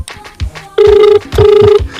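A telephone ringing on a radio call-in line: two loud, steady electronic tone bursts, each under half a second, separated by a short gap, over a faint low rumble.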